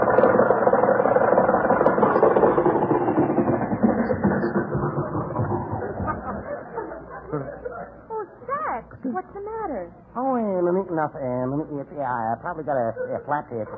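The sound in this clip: A car engine sputters as it runs out of gas, with a rough, rattling roar that gradually fades, after which people talk.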